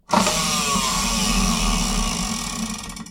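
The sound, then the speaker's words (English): A plastic toy prize wheel, enlarged with a cut-out wheel stuck onto it, is spun and gives a rapid whirring rattle. The sound starts abruptly, holds steady for about three seconds and then fades as the spin slows. “I cut it out, stuck it to that plastic toy, and now we have a much bigger and, let's be honest, more impressive wheel. It's got a nice kinetic action.”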